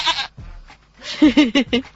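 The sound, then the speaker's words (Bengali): Goats bleating: one short cry at the start, then a quick run of four wavering, nasal bleats, each fairly loud and clear. “স্বামী গান গাইয়া ছাগল ডাকে”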